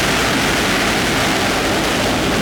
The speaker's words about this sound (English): So a couple of these shots, this the launch abort system, we flew about 5 years ago. What's fun about this is the rocket motor, this motor